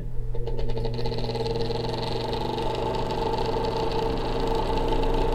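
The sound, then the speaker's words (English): An electric fan runs to dry out a water-soaked room, giving a steady, even hum with a tonal drone and faint rattling vibration that holds constant throughout. “Could someone turn on the fan over there? That might dry things out.”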